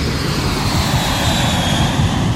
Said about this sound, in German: Und heute müssen wir ein bisschen länger im Flieger hocken.